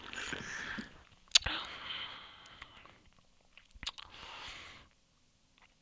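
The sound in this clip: Faint chewing on a watermelon-flavoured sweet, irregular wet mouth sounds broken by two sharp crunches.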